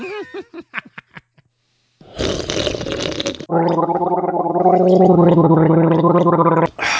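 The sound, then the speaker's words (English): Slurping a blueberry beer right into the microphone: a loud, noisy slurp gives way to a long, bubbling, gargle-like gurgle with a steady voiced tone running through it. “Yeah, this is ASMR, so make sure you slurp right into the mic.”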